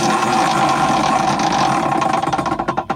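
A prize wheel spun to pick a midlife crisis in a game rattles with a dense, steady ratcheting clatter that breaks into distinct clicks spaced farther and farther apart as it slows near the end.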